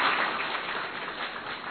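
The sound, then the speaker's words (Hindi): Audience clapping at a devotional gathering, a steady, even patter of many hands, fairly faint and dull in tone, with no talk. “सबको बहुत अच्छा लगा, ताली बजा दो।”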